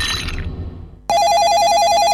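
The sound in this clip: A telephone rings for an incoming call in a radio advertisement: a loud, steady electronic warbling ring starts abruptly after a quieter stretch of background sound.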